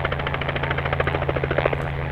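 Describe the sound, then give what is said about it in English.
A black helicopter flies low over a herd of wild horses in western Utah's high desert. Its rotor beats in a fast, even thump under a steady engine hum. “A black helicopter swoops past a herd of wild horses running across western Utah's high desert.”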